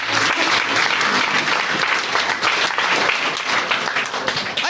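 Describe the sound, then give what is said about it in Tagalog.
A church audience claps along during a worship service. The clapping is loud, dense and continuous, with the crisp hand slaps blending into a steady wash of sound. “Come on, clap your hands to Jesus.”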